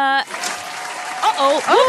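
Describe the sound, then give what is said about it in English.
Applause sound effect and a hip-hop air horn fired from a soundboard, opening with a short, bright horn blast before a steady wash of clapping, with a voice talking over the end. “wrong button. Sorry. Oh, you got applause and a hip-hop air horn.”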